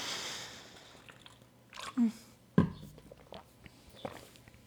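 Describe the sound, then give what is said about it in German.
A person takes a quick sip of a drink: faint gulping and swallowing sounds with a short click, under quiet background noise. “Oh, ich trinke kurz einen Schluck, Leute.”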